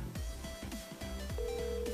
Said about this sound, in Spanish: Y vamos a ver si recuperamos la llamada con, David. Vamos a marcarlo de nuevo.